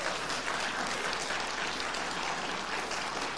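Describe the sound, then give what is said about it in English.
Applause from listeners during a pastor's message, a soft, even wash of clapping that holds steady for a few seconds. “yes, she deserves all the applause for that.”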